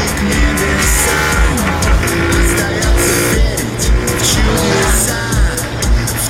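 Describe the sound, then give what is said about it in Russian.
Loud motorcycle engine noise as a rider carrying a passenger weaves between cars stopped in a traffic jam; a dense, steady roar of engines fills the whole stretch without pause, no talking heard. “Едет с каким-то парнем на заднем сидении мотоцикла. Парень ловко виляет между стоящими в пробке машинами, кричит.”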